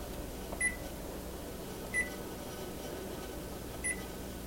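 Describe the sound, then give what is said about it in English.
Three short, high electronic beeps from an oven control panel as the preheat temperature is keyed in to 325, faint and unevenly spaced over a low steady hum. “So, I am going to preheat this oven to 325.”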